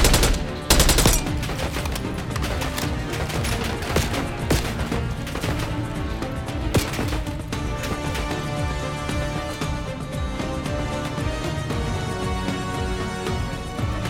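Rapid gunfire in a video game: loud, dense bursts of sharp cracks running almost without pause over a thick layer of game sound.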